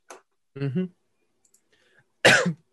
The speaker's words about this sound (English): I choked on water. Excuse me.